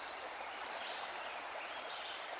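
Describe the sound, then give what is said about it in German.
A babbling brook makes a soft, steady, gurgling wash of water, faint and continuous, with no voices present. “Da erzählt ein Bachlauf gluckernd Geschichten.”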